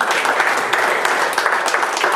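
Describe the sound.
A church audience applauds after a sermon, with thick, continuous clapping that stays fairly loud and even from start to end.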